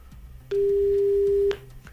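A telephone busy signal on an unanswered call to a company: a single steady, unbroken tone lasting about a second, sounding alone over a faint background hiss.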